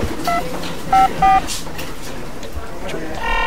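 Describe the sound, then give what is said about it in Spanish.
Short electronic keypad beeps sound as a telephone number is dialed: a few brief tones over steady background noise. “Chita, tengo que llamar a la María, tengo que conversarle esto porque esto no está bueno, ¿sí? Ahora, a ver, lo voy a marcar.”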